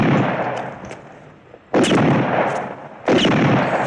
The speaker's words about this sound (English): Hollywood gun sounds.